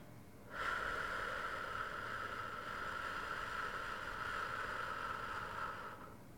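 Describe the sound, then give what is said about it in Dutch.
A full, slow exhale through the mouth, a breathy, even whoosh lasting about six seconds at steady loudness, alone without speech. “Adem eerst volledig uit door je mond en wees niet bang om hierbij geluid te maken.”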